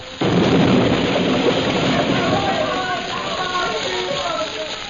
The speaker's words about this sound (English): Master, we must get back. The petrol tank will explode. Quickly, get back!